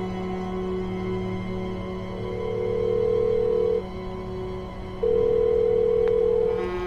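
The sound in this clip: Telephone ringback tone after dialing a call: two long, steady, buzzy tones separated by a pause, over a faint constant hum.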